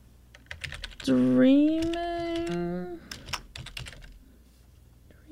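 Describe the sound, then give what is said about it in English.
Typing on a computer keyboard: quick, light clicks come in bursts, with a sustained vocal sound rising over them midway before the tapping carries on alone. “Let's just type it.”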